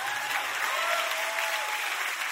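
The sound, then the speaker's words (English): Steady applause from a church audience during a sermon, a dense, even patter of many hands clapping that holds at the same level throughout. “If y'all clap, I can move on to number three.”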